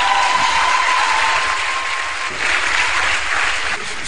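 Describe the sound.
Church audience applauding during a French-language service, a dense, steady wash of many hands clapping at once that holds at a fairly loud, even level for about four seconds.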